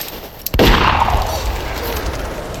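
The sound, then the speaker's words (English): A single gunshot fired by a sheriff at a woman standing in the snow: one sharp, loud crack followed by a long, dense, rumbling noisy tail that stays loud to the end. “He shot her. Without even turning to look at her.”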